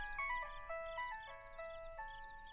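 A telephone rings with a chiming melodic tone, its clear bell-like notes stepping up and down in a repeating pattern, fairly faint and with no talk over it.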